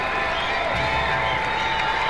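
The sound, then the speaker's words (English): Crowd cheering at a baseball game as fans rally behind the Rough Riders, a steady, dense roar of voices that holds at an even level throughout with no clear breaks. “This good crowd getting behind Sebastian Walcott and the Rough Riders.”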